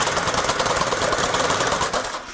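A weaving machine working fabric: a loud, dense, continuous mechanical clatter with rapid, even beats that keep going throughout.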